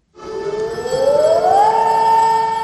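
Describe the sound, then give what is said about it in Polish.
Air raid warning siren sounding in the morning over the town of Wieluń: a loud wailing tone winds steadily upward in pitch, then holds a high, sustained note. “Syreny alarmowe o poranku było też słychać w Wieluniu w Łódzkiem.”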